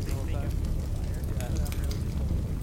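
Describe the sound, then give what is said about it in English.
A fire crackles softly and steadily with a dense run of small pops and hiss, while faint voices talk beneath it. “They can't even hear us talking. They're just hearing fire”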